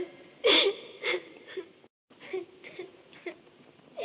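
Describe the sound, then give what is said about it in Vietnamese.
Crying and sobbing in a sung theatrical lament: high, quavering whimpers and wailing sobs come in several uneven bursts, broken by a brief silence partway through. “Lạ kìa, tiếng ai khóc than thảm thế?”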